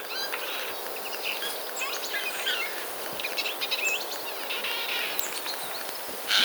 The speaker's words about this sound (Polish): Sójka śpiewa. Tak, proszę Państwa, to jest śpiew.